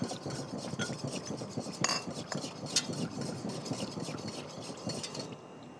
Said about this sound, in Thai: แล้วเราก็คนนะคะคนจนเป็นของเหลวก็คือไม่ให้มีลักษณะที่เป็นก้อนเป็นเม็ดอยู่เลยนะคะ